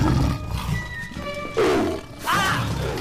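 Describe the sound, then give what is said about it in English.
A lion lunges and roars at closing gates, giving rough, loud roaring bursts in the second half that rise over a quieter bed of sustained tones. “He closes the gates just as a lion lunges.”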